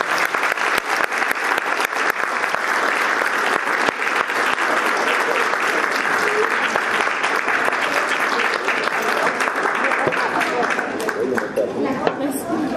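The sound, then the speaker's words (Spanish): Enthusiastic audience applause honoring a graduate program coordinator at an academic event, a continuous, dense clatter of clapping that holds steady for about thirteen seconds, with crowd chatter mixed in. “Quiero que le demos un gran aplauso a la coordinadora de posgrado.”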